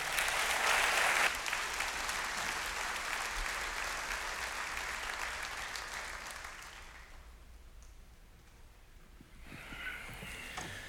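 Audience applause welcoming a guest onto a stage: sustained, dense clapping that gradually thins and softens, then swells briefly again near the end.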